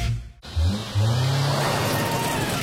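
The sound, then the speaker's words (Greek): A sports car engine revs hard after a brief silence, swelling in two quick surges into a loud, sustained roar that carries through to the end. “Το νέο Linklong Sportmaster ήρθε για να επαναπροσδιορίσει την οδήγηση.”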